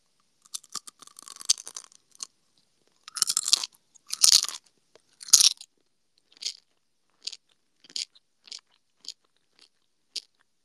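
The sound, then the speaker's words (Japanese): Crisp crunching of Gummy Mitzel, a crunchy gummy candy, being chewed: a few loud, dense bites near the start, then many short, sparser crunches spaced out until the end, with no talk. “これもじゃあちょっと、食べていきたいと思います。はい。グミッツェル。”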